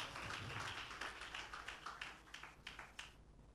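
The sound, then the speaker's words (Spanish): A church audience applauds in praise to the Lord, with faint clapping that starts as a dense patter and settles into more spaced, rhythmic claps. “De ese aplauso de alabanza al Señor.”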